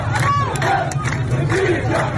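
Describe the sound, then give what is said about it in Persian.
Protesters shouting slogans in front of the governor's building in Shush, Iran: a loud, continuous roar of many raised voices crying out together, steady throughout. “معترضانی که فریاد می‌زنند من تشنم و حقم گلوله نیست.”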